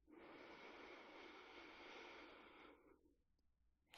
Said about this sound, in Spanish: Inhala.